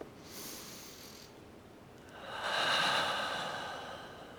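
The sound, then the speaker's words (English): A big, deep breath drawn in, a slow airy inhale that swells and then fades, following an earlier softer breath. “Big breath in.”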